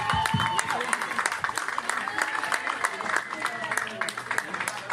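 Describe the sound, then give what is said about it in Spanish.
Audience applause welcoming a musician onto the stage at a community event: continuous, dense clapping at a steady level for the whole five seconds. “pero que nos caiga el aplauso hasta que está aquí arriba. Así es que sigan aplaudiendo.”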